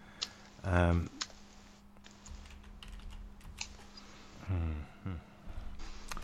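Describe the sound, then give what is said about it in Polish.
Keys tapped to enter a phone number, a series of soft, irregular clicks, quiet overall, with a person talking in short stretches around them. “Teraz to, co słyszycie, to jest, jak wklepuję tenże numer.”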